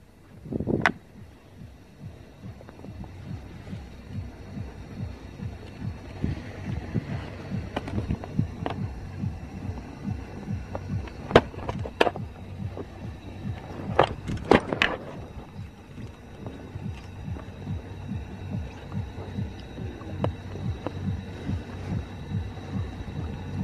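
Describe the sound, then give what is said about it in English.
Early-morning camp ambience at a desert festival around 5 a.m. on its second day: a steady low rumbling hum with wind noise, broken by a few sharp clicks and knocks near the middle. “Sounds of Burning Man at like day 2, 5 in the morning.”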